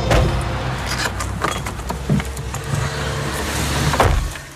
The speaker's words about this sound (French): C'est la voiture familiale qui va partir en Afrique bientôt.